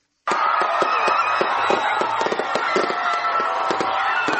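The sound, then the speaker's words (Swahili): Fireworks explode over Kampala to welcome the 2016 New Year. A sudden start opens into a dense, loud barrage of many sharp cracks and pops that runs without pause to the end. “Ni milio ya fataki, ishara ya makaribisho yaliyonoga ya mwaka 2016 na kuupa mkono wa kwaheri mwaka 2015.”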